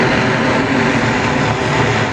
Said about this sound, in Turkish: Çin tarafından geliştirilen elektrikli dikey kalkış ve iniş yapabilen uçan taksi Astana semalarında başarıyla havalandı.